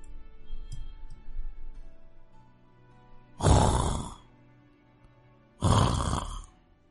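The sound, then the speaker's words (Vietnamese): Snoring starts as faint, low rumbling breaths, then two loud, harsh snorts burst out a couple of seconds apart, with no talking. “Tiếng ngáy nhẹ nhẹ truyền đến, dần biến thành tiếng o o, đinh tai nhức óc.”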